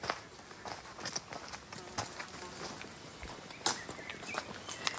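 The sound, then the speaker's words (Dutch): Footsteps of people walking outdoors in a nature area: many light, irregular steps crunching along at a relaxed pace, with one sharper step standing out. “Zullen we een stukje lopen?”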